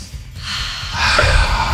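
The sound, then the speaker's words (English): A deep breath drawn in as a soft, airy rush that swells louder toward the end, with no talk over it. “Take a big deep breath. I'll do it with you.”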